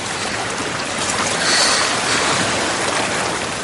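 Sea water and waves as someone wades slowly into the sea: a continuous rushing wash of water that swells slightly in the middle and then settles back to a steady level.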